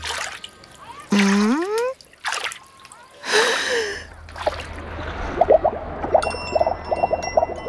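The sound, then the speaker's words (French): Water splashes as a child named Toudou, wearing goggles, dunks his head under the surface. Short vocal sounds come first, then a rushing splash and a stretch of bubbly trickling. “Toudou plonge la tête sous l'eau.”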